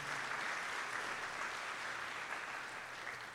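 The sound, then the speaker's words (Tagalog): Applause for the Lord at a worship gathering, dense steady clapping from many hands that stays even and sustained from start to finish, with no voices. “Sige, o, lakasan na natin ang palakpak para sa Panginoon.”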